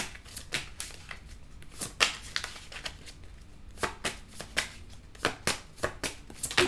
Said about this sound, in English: So let me go ahead and take a few more cards.